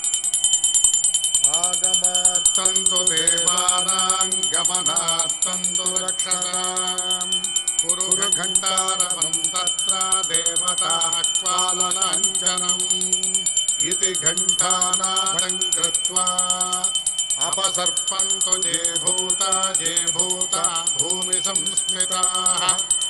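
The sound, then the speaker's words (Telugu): A puja hand bell rings steadily at the start of a Hindu worship ritual, a bright, high ringing that lasts throughout, layered over sustained melodic tones. “ముందుగా గంట వాయించండి, దీపారాధన వెలిగించండి.”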